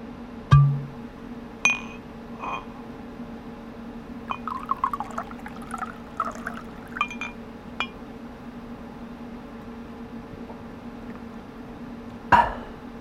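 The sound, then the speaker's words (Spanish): A drink being poured into a glass as a celebration: sharp glassy clinks near the start and again at the end, with a soft, uneven trickle of liquid in between over a steady low hum, and no voices. “Tras este nuevo éxito terapéutico, la doctora Orbajosa se sirve una copa para celebrarlo.”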